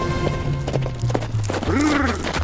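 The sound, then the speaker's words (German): Horse hooves as a rider turns back during a par force hunt: a few uneven clops over a steady low hum. “Es ist also ganz und gar ungewöhnlich, dass plötzlich ein Reiter umdreht und zu ihr zurückkehrt.”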